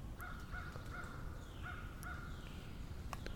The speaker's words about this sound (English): A lot of crows today. A lot of crow activity.